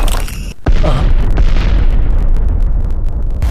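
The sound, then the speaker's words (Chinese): A bomb explosion in a superhero cartoon fight: one sudden heavy blast after a brief quieter stretch, then a loud, sustained roaring rumble that carries on to the end. “我们要阻止他继续引爆炸弹。”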